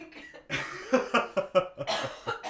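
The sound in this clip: A person coughs in a fit of many short, harsh bursts in quick succession, fairly quiet and with no talk.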